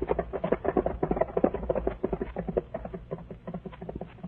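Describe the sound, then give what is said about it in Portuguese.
Rapid hoofbeats of a horse galloping along a road, a quick, steady run of many muffled clops that stays fairly even in loudness throughout. “o rapazola chicoteou seu cavalo e disparou estrada fora, sem olhar para trás”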